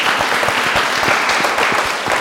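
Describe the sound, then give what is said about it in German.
A class of sixth-graders at a school in Gotha applauding, with dense, steady clapping and a few sharper individual claps standing out from the mass. “Und ihr könnt euch erstmal selbst einen großen Applaus geben für eure tollen Fragen.”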